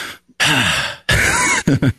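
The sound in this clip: A human voice imitates a dog's relaxed sigh: two drawn-out, breathy groaning exhales followed by a couple of short puffs of breath, loud and close.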